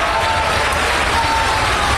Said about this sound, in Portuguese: Vamos aplaudir e glorificar mais o nosso Deus.